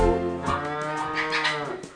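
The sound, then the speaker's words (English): A cow moos: one sustained, loud, low and richly toned call running for about two seconds, with slight shifts in tone and a softer tail near the end. “Daisy the cow went moo moo moo.”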